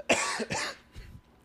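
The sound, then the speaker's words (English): A person coughing: two harsh, forceful coughs in quick succession, followed by quieter throat noise and a brief click. “someone sent me an email saying that they were glad I was keeping it real and coughing. I'm not trying to edit all that out.”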